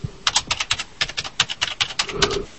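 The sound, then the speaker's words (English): A password is typed on a computer keyboard as a rapid string of many crisp key clicks in a quick, uneven rhythm. “Listen to this. You can hear me type in my password on my computer.”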